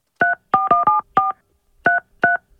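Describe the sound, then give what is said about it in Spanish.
Touch-tone phone keypad being dialed: seven short, bright beeps of different tone pairs, the first five in a quick uneven run, then a pause before the final two, with no talk. “Ok, le voy a marcar, espérame un segundo.”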